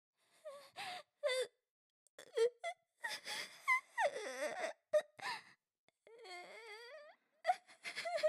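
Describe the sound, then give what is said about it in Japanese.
A person crying: broken bursts of whimpering and wavering, sobbing wails with sharp gasps between them, fairly loud, with no speech. “ああ泣いちゃった。”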